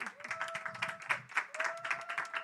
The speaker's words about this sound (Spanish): Un aplauso, por favor.